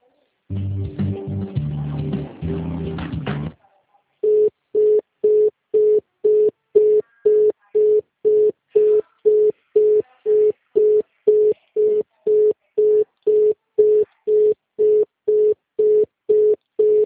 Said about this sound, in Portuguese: Você acredita que ela falou que ela ia me transferir para o superior dela e a ligação caiu? Ou será que eles desligou?